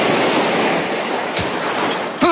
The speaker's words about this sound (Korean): 이 파도가 넘실넘실대는 소리로 시작을 하죠. 네, 바다 소리로 시작하는.